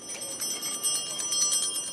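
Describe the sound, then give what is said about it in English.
Ice cream vendors ring handbells on a street in Honduras, a rapid, bright, continuous jangle of many metallic strikes that stays fairly loud throughout. “A few blocks from the Brazilian compound, ice cream vendors frantically ring their bells, trying to attract customers”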